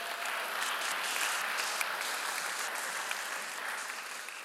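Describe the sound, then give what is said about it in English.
Audience applause, a steady, dense clapping that stays even and full throughout with no voices standing out. “So congratulations. Give yourselves a hand. You guys are doing it. It's awesome.”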